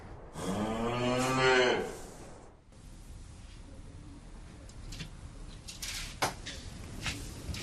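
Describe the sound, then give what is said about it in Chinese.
A single long, deep moo from a herd of cattle sounds loud at first, then gives way to quieter outdoor ambience with a few faint chirps. “下边我们就是要找到这个头牛，也就是牛群里边的领导人。”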